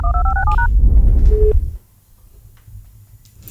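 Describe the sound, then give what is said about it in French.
Touch-tone keypad dialing a number to a switchboard: a quick run of short dual-tone beeps, then a brief single tone, after which a low rumble drops away to quiet line hiss. “on compose le numéro au standard, s'il vous plaît.”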